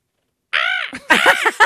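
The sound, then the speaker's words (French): A crow gives a few harsh, nasal caws with short gaps between them, the first call long and arching and the last one clipped. “C'est une corneille.”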